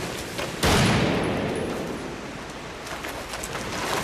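A gunshot rings out during a chase after a fleeing man. A single sharp, loud crack is followed by a long, noisy tail that fades slowly, with faint crackles just before it.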